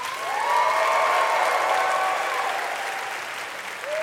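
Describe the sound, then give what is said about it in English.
An audience applauds with some cheering over the clapping. The steady, dense applause holds for about four seconds and eases slightly toward the end. “Okay, first, I'd like you to make some noise for Alexandra Petri.”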